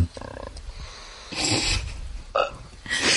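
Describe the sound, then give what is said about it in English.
Burping after drinking Prosecco: a few low, rough belches rise from a quieter background, each brief and guttural, the last one louder and raspier. “it just keeps burping. It's a Prosecco, I swear.”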